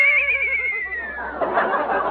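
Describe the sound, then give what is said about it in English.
A wagon horse named Dobbin whinnies in a long, quavering high cry that slides downward in pitch and trails off into breathy noise. “Well, can't the horse pull for a while? I'm tired. Well, all right. Hey, Dobbin, get out of that wagon.”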